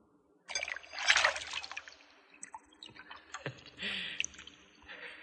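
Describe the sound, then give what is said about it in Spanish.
Clean water is poured into a clay bowl. An opening gush of splashing trickle gives way to quieter, intermittent drips and sloshes, then a second soft stream of liquid toward the end. “Ponen agua limpia en una fuente de barro y luego le echan polvos colorantes.”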